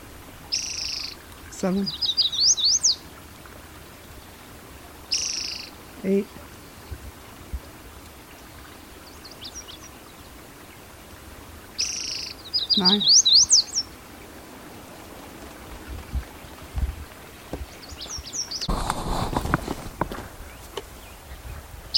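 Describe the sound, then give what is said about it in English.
A yellow warbler sings short, high, bright phrases that come back at irregular gaps of several seconds. Each burst is brief and fairly faint over a quiet background. “yellow warbler singing.”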